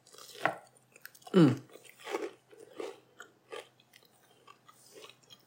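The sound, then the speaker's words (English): Crunching bites into gluten-free Irish soda bread with butter, a crusty loaf studded with dried fruit: a small crunch, then one loud, heavy bite, followed by several softer, evenly spaced chewing crunches. “Sorry, I took a huge bite. Probably shouldn't have done that. Okay. It's really crunchy on the outside, and it's barely sweet.”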